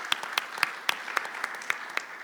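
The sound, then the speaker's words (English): Audience applause for someone who has just shared a story: fairly faint, loose clapping with many distinct sharp claps scattered unevenly across the moment. “So let's give Doug and God a round of applause.”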